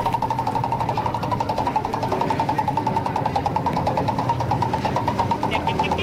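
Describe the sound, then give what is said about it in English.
A spinning prize wheel on a game show clicks rapidly and evenly as its pointer ticks past the pegs, forming a dense, steady ratchet-like rattle that continues unchanged throughout with no clear voices. “We better spin the prize wheel.”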